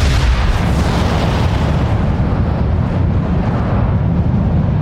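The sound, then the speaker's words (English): A roaring eruption of stone and earth bursts from the ground during a magical attack on a training field, a dense, loud, unbroken rumble of noise that holds steady for the whole stretch. “A fountain of stone and earth erupted out of the ground directly underneath Flint, throwing rocks and dirt flying into the air.”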